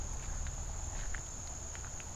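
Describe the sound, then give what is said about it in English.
Slow footsteps move through woods past logs, giving a few faint, soft steps over a steady high-pitched insect drone. “And I'm walking along slowly, just so I can check these logs too.”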